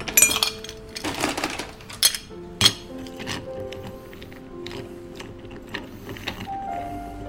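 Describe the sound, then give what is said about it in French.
Ice cubes clink and clatter into a mixing glass while a vodka cocktail is made at a bar. A few sharp, bright clinks come close together at the start, then lighter, scattered glassy ticks follow. “Un verre à mélange. Des glaçons. Un centilitre de vodka.”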